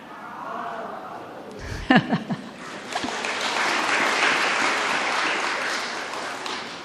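An audience bursts into applause during a question-and-answer session. A few short sounds come first, then the clapping builds into a steady, fairly soft wash that holds for several seconds.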